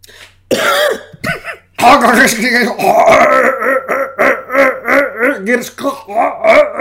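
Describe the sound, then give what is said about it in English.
Vocal throat warm-ups before a baseball pregame show. A rough throat clearing and coughs open into a long run of many loud, rhythmic voiced sweeps and grunts, each rising and falling in pitch. “Throat warm-ups.”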